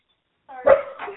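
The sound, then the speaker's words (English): A dog gives a brief, sharp bark with a short, fainter tail after it, heard alone after a moment of silence. “I think okay, that's a dog barking.”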